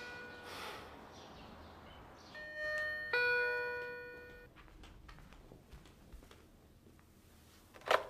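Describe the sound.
A doorbell chime rings, a few clear bright tones struck in turn and left to ring out, faint against low rustling background noise, with a sharp click close to the end.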